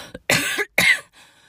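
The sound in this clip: A person coughs twice, loud and harsh, with a short gap between the coughs. A small throat sound comes just before them and no talking is heard.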